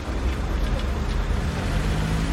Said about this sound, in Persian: صدرا دنده عقب میگیره.